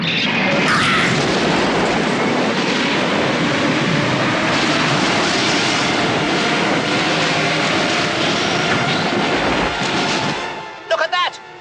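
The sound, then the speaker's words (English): A space cruiser explodes in a loud, sustained roar of dense rumbling noise. The roar holds steady for about ten seconds, then cuts off suddenly. “Cruiser is exploding!”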